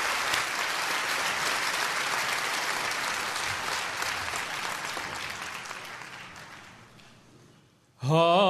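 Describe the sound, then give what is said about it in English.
Applause from a worship-service audience welcoming a singer to the stage: dense, steady clapping that holds for several seconds, then gradually fades before a voice begins speaking at the very end. “I want you to put your hands together and welcome Steve Amerson as he comes to sing for us today.”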